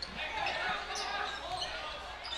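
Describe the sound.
A basketball dribbled on a school gym court during a game, with a few faint, quick bounces under a steady roar of crowd noise.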